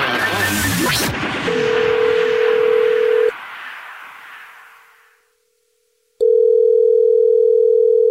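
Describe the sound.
A telephone dial tone while calling a listener back: a burst of rushing noise, then a steady hum-like tone that stops. After a brief silence, a loud, steady tone resumes and holds to the end, with no talk.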